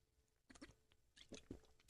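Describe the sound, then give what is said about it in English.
Soft sipping and swallowing mouth sounds from a drink of water, faint and brief, ending with a sharper click. “I got to get a sip of water. I didn't drink enough before I got on the air.”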